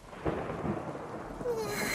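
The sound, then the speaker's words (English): Thunder gives a faint, continuous rolling rumble, broad and noisy, with a few soft swells and no voices. “That thunder is scary, Master.”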